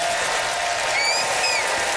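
Studio audience applause rings out as viewers vote for a contestant on a debate-style game show, a dense, steady wash of clapping that holds at an even level for the full two seconds.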